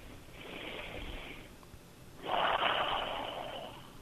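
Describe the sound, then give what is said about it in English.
Heavy breathing heard over a phone line: a long, faint, hissing breath, a short pause, then a louder, rougher breath that slowly fades. No speech. “Who's breathing on the phone?”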